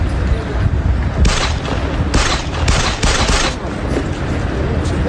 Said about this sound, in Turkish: Telefonla tehdit ettiler. Yolda yürürken kurşun yağdırdılar.